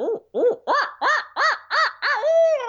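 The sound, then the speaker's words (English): A person imitates an owl's hoot as a call to draw gobbles from turkeys. Seven loud, arched hoots come in a steady rhythm, and the last is drawn out into a longer, higher sustained note. “So instead of just going, my normal owl, after about 10 of those, I finally kind of threw in a,”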